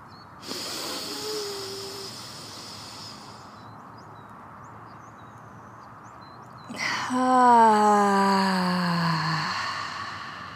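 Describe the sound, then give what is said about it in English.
A deep breath drawn in outdoors in a front yard in brisk New Mexico weather: a soft airy inhale, a pause, then a long voiced exhaling sigh whose pitch slides steadily downward. “try to make this the biggest breath of the whole month.”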